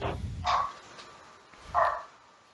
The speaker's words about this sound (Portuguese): Que cachorro? Não tem cachorro latindo aqui não. Agora tem.